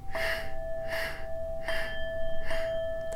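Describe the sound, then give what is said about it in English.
Deep, paced breathing, with four short breathy rushes of air spaced at even intervals over a steady, soft tonal drone. “For these last 2, we'll inhale for 4. Exhale for four.”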